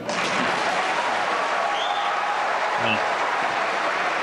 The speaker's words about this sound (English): fucking clapping for that shit.